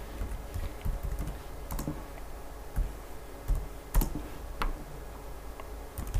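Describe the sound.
Typing on a computer keyboard into a dummy file: irregular bursts of light key clicks with a few louder, sharper taps and brief pauses between runs of keystrokes.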